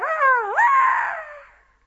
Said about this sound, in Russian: Слышен собачий виск.